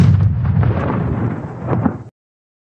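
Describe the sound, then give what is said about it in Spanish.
An artillery gun fires, producing one loud, dense blast that rolls on as a heavy, low rumble for about two seconds, swells slightly near the end, and then cuts off abruptly. “Variación de proyección a 24 metros. ¡24 metros! ¡Listo! Inclinación 26 grados. ¡26 grados! ¡Listo! ¡Fuego!”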